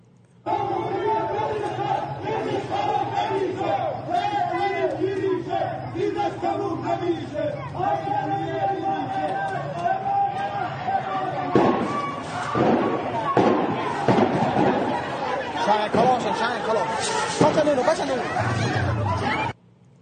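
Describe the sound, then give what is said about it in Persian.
A protest crowd in Abdanan chants slogans, many voices rising and falling together in a loud, sustained rhythm. In the second half, sharp bangs and rougher shouting break in over the chanting. “باید بیشتر بشه، شعارای مقداری به سمت جاوید شاه بره. میدونی ببین مثلا اینجا الان تو آبدانان بود”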